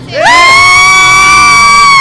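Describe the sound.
Girls cheer and shout together in a toy store. A loud, high-pitched scream rises in quickly and then holds steady and piercing to the end.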